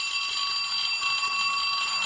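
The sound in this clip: An unanswered telephone rings with a continuous bright, high electronic trill that holds steady and unbroken throughout, with no voices.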